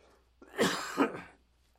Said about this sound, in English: Right now I'm noticing there's this irritation that's moving from the upper part of my chest up to my throat, creating a reaction.